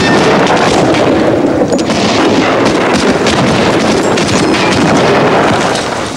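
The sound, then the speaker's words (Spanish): A roaring explosion as a tank is struck by a second cannon shot from the left flank and erupts into a fireball. Loud, dense blast noise and crackle sustain for the whole stretch, easing slightly at the end. “Un segundo disparo proveniente del flanco izquierdo lo convierte en una bola de fuego.”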